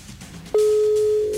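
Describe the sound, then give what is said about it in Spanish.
A ringing tone on an outgoing telephone call: a steady, mid-pitched electronic tone starts about halfway through and holds unbroken to the end. Faint background noise comes before it. “Ya está marcando, ya está marcando.”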